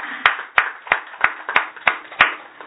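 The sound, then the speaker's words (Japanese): Audience clapping together to celebrate birthdays at a gathering: seven sharp, evenly spaced claps in unison, each a crisp hit with a short decay, steady in rhythm and loudness. “盛大な拍手でお祝いを”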